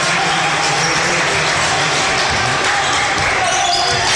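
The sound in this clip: Basketball bouncing on the court during a game involving the Beavers, with dribbles thudding under steady crowd noise while a man talks over the play.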